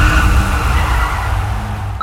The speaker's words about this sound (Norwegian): Bilen min lager slik vinelyd I svinga. Ja, det nok at du kjører på feil dekk for årstiden, med.